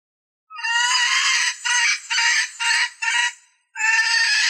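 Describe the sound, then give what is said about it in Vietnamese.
Panicked chickens, hens and roosters being herded, squawk in a run of loud, harsh, shrill bursts with short gaps between them, then another burst after a brief pause. “Tiếng gà kêu với tiếng đập cánh chạy nhảy bay lên loạn xạ.”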